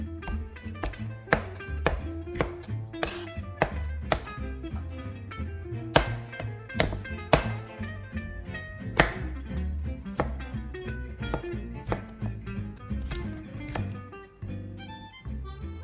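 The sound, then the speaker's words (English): A knife slices green peppers in a steady run of many sharp, crisp chopping taps at an uneven, brisk rhythm, with no talk over it. “I like the contrast, the beautiful colors of the green peppers and the eggs cooked together. So, and I'm finishing up my slicing, and next we'll start the cooking.”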